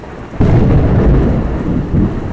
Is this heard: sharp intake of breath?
no